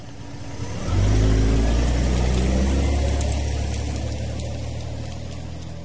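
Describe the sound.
Car engine starting and revving as a sound effect: a deep rumble swells in after a brief quiet start, its pitch climbing as the engine revs, then it holds a steady drone that eases slightly toward the end.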